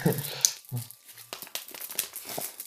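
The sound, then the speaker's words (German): A letter is opened and its thick wad of paper crinkles and tears in a run of crackly rustles. A voice is briefly heard at the start. “wir öffnen diesen Brief einfach mal gemeinsam”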